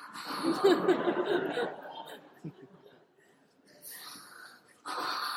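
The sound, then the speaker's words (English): A voice imitates breathing out with water at the lips, as if the water has risen to the chin. It makes a bubbling, sputtering blow for about two seconds, followed by softer breathy puffs and hisses. “So when you breathe in, water comes to your lip. So when you breathe out, you're like,”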